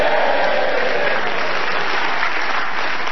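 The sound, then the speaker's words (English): Dense, sustained applause from a Yorkshire audience in a cinema, loud and steady throughout with no speech over it. “we are very grateful to this lovely Yorkshire audience here in the Picture Playhouse Cinema.”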